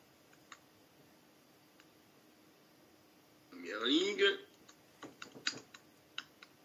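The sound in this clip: Typing on a computer keyboard gives a few soft, scattered key clicks in short clusters. They are faint over a quiet background, and a brief louder sound comes between them.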